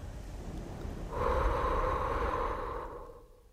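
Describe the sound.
A long, soft exhale breathed onto a mirror. It swells in suddenly, holds for about two seconds as a breathy hush and then fades away, with no talk.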